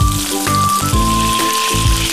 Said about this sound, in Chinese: 我们放入切好的彩椒块，炒至彩椒块烧软的时候，倒入刚才炒好的虾仁